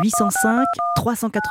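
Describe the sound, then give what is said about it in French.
Telephone keypad tones sound as a number is dialed. A few short, steady two-note beeps play under a voice that keeps talking. “Oui, je compose tout de suite le numéro”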